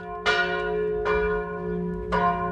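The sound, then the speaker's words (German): Church bells ringing: three clear, resonant strokes spaced about a second apart, each a bright metallic clang with a long decaying ring over a steady low hum. “sind die Glocken des Tages beim heiligen Bimbam.”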